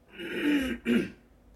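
Someone clears their throat with two rough, gravelly bursts. A longer rasp comes first, then a shorter, sharper one, and a quiet pause follows.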